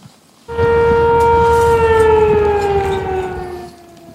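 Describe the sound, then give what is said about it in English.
A flood warning siren wails in Sumas, Washington State. One loud, sustained, even tone sounds over a low rumbling background, sinking slightly in pitch before cutting off and leaving a fading tail. “That's the sound of the flood siren going off in Sumas in Washington State on the other side of the border.”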